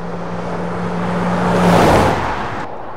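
A car drives along a provincial road, its steady engine and road noise swelling gradually toward the middle, then easing off.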